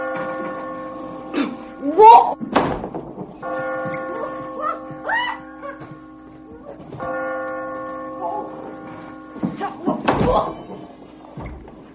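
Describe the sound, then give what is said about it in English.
A bell rings in three long, sustained tones with lingering overtones, separated by short gaps filled with thumps, knocks and voices. “The bell.”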